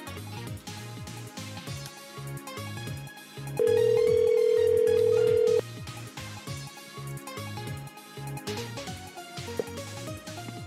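A telephone rings while a home number is being called, one steady tone lasting about two seconds that sounds over ongoing background music.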